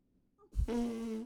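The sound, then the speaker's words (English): A voice imitates a fart with the mouth, a single short, buzzy raspberry lasting under a second after a soft puff of breath, fairly faint. “Make fart sounds like this.”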